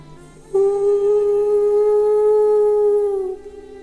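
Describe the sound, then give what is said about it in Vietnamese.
A wolf howls at the full moon from a high mountain peak: one long, sustained howl of about three seconds, held at a steady pitch, loud and alone. “Nhìn vầng nguyệt giữa bầu không tối tăm, Lan Vương hú lên một tràng dài.”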